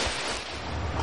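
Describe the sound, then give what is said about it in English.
Water churned by many swimmers during a triathlon swim leg: a continuous rushing, splashing wash with no distinct individual strokes, fairly loud and steady. “142 hands swimming a triathlon.”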